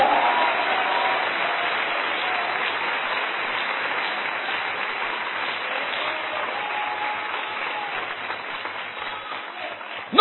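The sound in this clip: A church audience applauding at an evening service: dense, steady clapping from many hands holds at an even loudness throughout, a continuous wash of claps with no break.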